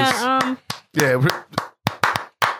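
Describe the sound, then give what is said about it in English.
Several sharp, uneven hand claps ring out, separated by short gaps, with a voice vocalizing loudly around the first claps. “round of applause.”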